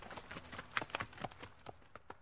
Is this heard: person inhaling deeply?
no